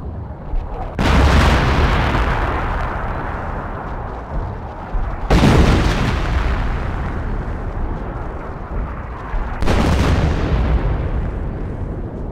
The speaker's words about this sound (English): both men and machines worked in sync as the ships opened fire on the forts.